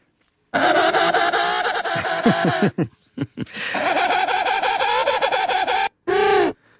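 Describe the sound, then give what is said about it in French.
A penguin gives a loud, harsh braying call with dissonant, buzzy tones. Two long phrases are broken by short gasping notes, and a brief final burst follows. “On écoute le manchot.”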